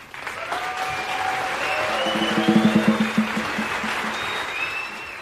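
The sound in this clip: Audience applause in a jazz setting: a dense, even wash of clapping that swells slightly past the midpoint, then eases off toward the end.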